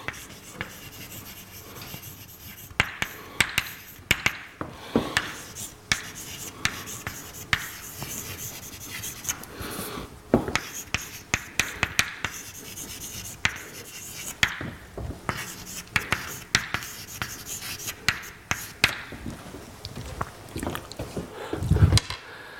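Writing on a board, with many short scratching and rubbing strokes in an irregular rhythm, quiet and with no talking.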